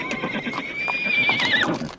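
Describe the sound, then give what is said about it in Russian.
A rearing horse neighs as if in pain, one long high whinny that wavers and then drops away at the end, with soft hoof clops beneath. “Та снова встала на дыбы и заржала, как от боли.”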